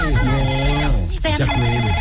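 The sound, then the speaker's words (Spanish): A telephone ringtone sounds for an incoming call: a steady stream of bright, layered tonal notes that fills the whole clip at a loud level. “Me está entrando una llamada. Dame un segundito, a ver.”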